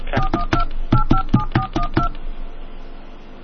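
Telephone keypad dialing tones: crisp, evenly spaced electronic beeps, a short group followed after a brief pause by a longer run, then quiet line hiss.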